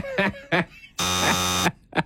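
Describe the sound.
A harsh buzzer sound effect blares as one steady, flat, raspy tone lasting under a second, set between short bursts of voices talking before and after it.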